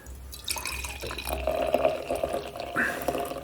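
Beer poured from a bottle into a glass: continuous liquid gurgling and splashing with small drips, moderately loud throughout.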